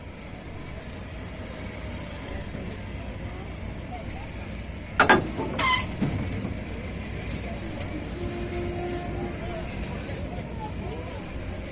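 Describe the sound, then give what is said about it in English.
Flying Scotsman, the unstreamlined Gresley Pacific steam locomotive number 4472 (also 60103), running with a steady, continuous rumbling roar and a brief louder burst of noise midway. “This is number 4472, The Flying Scotsman, and this is on a record all of its own called Sound Stories. Stanley Schofield Productions Limited, and it speaks for itself.”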